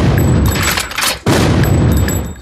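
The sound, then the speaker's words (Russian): A cartoon cannon fires cannonballs that carry knights off one after another. The blast is a loud, rumbling boom that briefly dips midway, then a second heavy burst swells up and slowly fades. “Огонь! Витязь за витязем улетает на ядре.”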